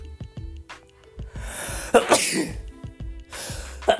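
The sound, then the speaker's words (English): A single loud sneeze bursts out in the middle, a short explosive noise over a faint background of steady tones and soft thumps. “And I'm sorry for that sneeze, everybody. I know you didn't need that.”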